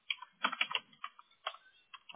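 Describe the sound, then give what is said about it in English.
Typing on a computer keyboard to enter a name: soft, irregular clusters of key clicks with short pauses between bursts, quiet and with no talking. “If I could type it the right way twice. There we go.”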